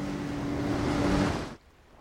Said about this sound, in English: The researchers grip the perimeter rope as the boat speeds over the water.